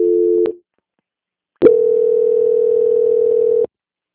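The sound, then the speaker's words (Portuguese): Telephone line tones during a call transfer. A short two-pitch tone cuts off, then about a second of silence follows. A click brings in a steady single-pitched tone that holds for about two seconds and stops abruptly. “Agora estarei transferindo o contato do senhor para o controle de qualidade. Peço que o senhor aguarde em linha, tá bom?”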